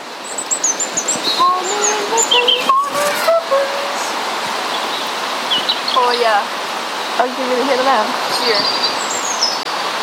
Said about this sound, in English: Well, probably a blackbird. They sing beautifully.